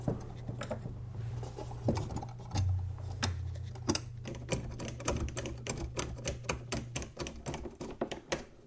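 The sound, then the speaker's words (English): Screws being driven in while a speaker is reattached give a long run of quick, dry ratcheting clicks at an uneven rhythm, over a steady low hum. “Can get the first one in. The others should easily follow. we go. That one's starting to thread.”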